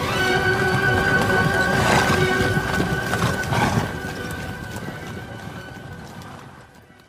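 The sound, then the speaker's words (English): Hooves of many horses clop as a king and twelve lords ride out of a castle, a dense, busy clatter that thins and fades away over the final seconds. “The king rides out of the castle with twelve of his lords. Melot is riding next to him.”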